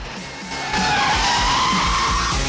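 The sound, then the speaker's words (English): A car's tires screech as it makes a handbrake turn into a parking space. The skid is loud and sustained, rising from a softer start and holding steady until the end. “His car swerves dramatically before performing a perfect handbrake turn into a parking space.”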